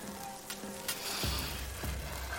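Yakisoba frying in a sweet pink sauce, giving a steady, crackling sizzle that hisses throughout with no pauses.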